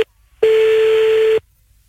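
Telephone tones sound while calling back: a brief beep, then a single steady mid-pitched tone lasting about a second before it cuts off into silence.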